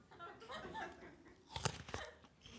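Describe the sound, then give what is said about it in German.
A crisp crunch of teeth biting into an apple: one sharp burst followed by a couple of shorter crunches, after a few seconds of soft voices and light laughter. “Koste mal. Wir warten dann fünf Minuten. Beiß jetzt mal rein. Nee, ich will jetzt gerade keinen Apfel essen.”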